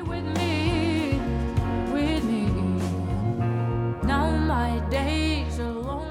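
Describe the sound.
An introspective pop song backed by guitar and piano that shifts between moods and tempos. Layered melodic lines play over a steady low bass, then the music breaks briefly and returns fuller.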